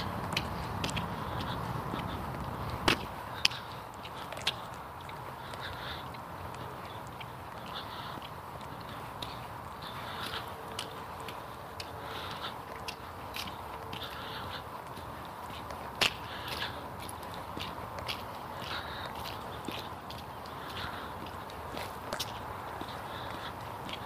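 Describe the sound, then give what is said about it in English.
Brisk footsteps of someone walking quickly on a cold morning, a steady run of light, crisp steps over a soft background hiss, fairly quiet throughout. “I've been walking along rather quickly this morning because it's rather cold.”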